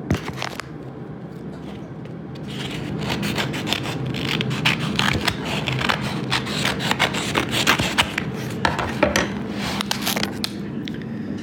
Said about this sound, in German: Als erstes schneide ich allerdings mal die nächste Seite vom Escape Room auf.